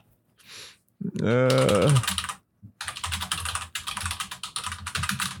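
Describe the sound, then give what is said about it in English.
Fast, vigorous typing on a computer keyboard: a dense run of many sharp clicks lasting several seconds, preceded by a short burst of a person speaking. “I'm going to type ferociously into my...”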